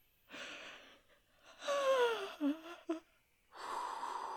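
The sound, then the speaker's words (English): Two people take deep breaths together, a few long, breathy inhales and exhales with a brief laugh in the middle, fairly soft and without talk. “we both take a deep breath”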